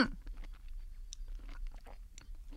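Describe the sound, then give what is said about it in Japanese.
Chewing on a mouthful of green curry with bamboo shoots and chicken: soft, wet mouth sounds and a few faint crunchy bites, quiet and with no talking. “グリーンカレーをいただきたいと思います”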